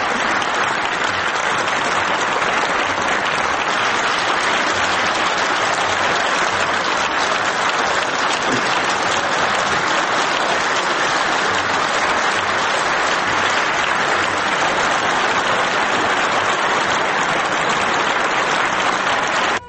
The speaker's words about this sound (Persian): آقا نشون بده کیا دست میزنن برای روحانی، نشون بده.